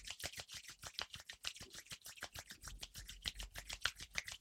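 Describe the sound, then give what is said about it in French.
Two hands rubbing briskly against each other, giving many quick rhythmic swishing strokes at a fairly even loudness, with no talking. “Nous allons frotter les mains l'une contre l'autre.”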